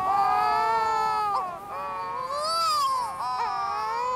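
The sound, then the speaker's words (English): Wedge-tailed shearwaters wail in an eerie duet while sitting facing each other on the ground: continuous, loud, baby-like moaning calls that waver up and down in pitch, broken by a few sharp catches. “wedge-tailed shearwaters sit facing one another on the ground and puff up their throats to perform long duets of eerie wailing”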